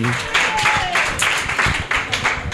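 An audience applauds the winner of a drag competition in Chicago with a loud, continuous burst of clapping and crowd noise that stays level for the whole stretch.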